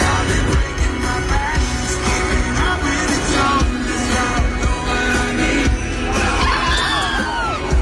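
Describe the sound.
A concert crowd reacts loudly as a singer falls off the stage, with a dense, continuous wash of shouting, cheering and whoops that never lets up.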